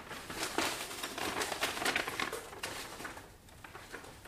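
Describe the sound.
A small paper letter is crumpled and stuffed into a pocket, giving a dense, continuous crinkling and rustling that fills several seconds and eases off toward the end.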